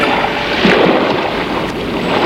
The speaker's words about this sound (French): le bruit de la mer